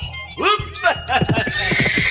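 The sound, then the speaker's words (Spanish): A horse gives a loud, ringing whinny, then rhythmic galloping hoofbeats pound out a steady clip-clop, with sound continuing throughout and no clear pauses. “Galopando con el Chúcaro.”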